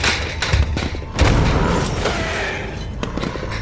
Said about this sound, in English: Use the pipe bomb. Everyone, down!